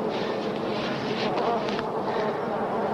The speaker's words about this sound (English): They're just going right up in there. Those bees swarming.